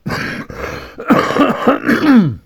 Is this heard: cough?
yes